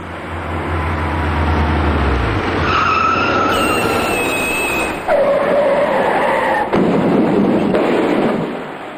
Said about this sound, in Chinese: 雨天道路湿滑，这辆大货车随即失控